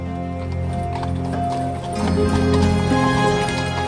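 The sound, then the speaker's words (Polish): Horses' hooves clip-clop beneath a horse-drawn carriage, many even strikes in a steady, continuous rhythm, fairly loud throughout. “Konie po pana dyrektora.”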